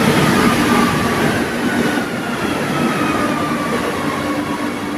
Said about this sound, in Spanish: Y a las 12:26 quiero que te subas conmigo al metro.